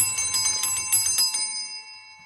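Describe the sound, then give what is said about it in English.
A bell rung on a game show: a rapid run of bright metallic strikes, many in quick succession, then a ringing tone fading out on its own. “we have two bells today”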